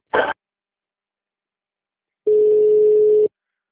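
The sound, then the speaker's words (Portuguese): A telephone ringback tone plays while a customer-service call to a bank is transferred to an agent: one steady, mid-pitched tone lasting about a second, after a brief noise burst and a silent gap. “Por favor, aguarde. Estamos transferindo a sua ligação para um dos nossos atendentes.”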